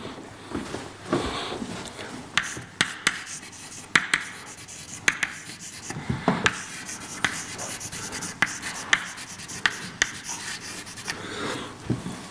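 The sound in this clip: An equation is written on a board during a lecture, with many irregular scratchy strokes and sharp taps of the writing tool. Quiet rustling fills the gaps, and no one speaks.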